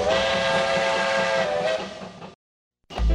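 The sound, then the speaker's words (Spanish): An approaching train's steam whistle blows in one loud, sustained, hissing blast lasting a little over two seconds. It cuts off to silence, and then another loud burst starts just before the end. “¡Ya viene el tren!”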